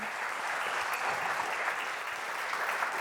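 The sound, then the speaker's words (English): A church audience applauds to welcome a pastor to the pulpit, producing steady, dense clapping that stays at an even level throughout. “Would you put your hands together and join me in welcoming Pastor Richard Hinojosa to the pulpit today?”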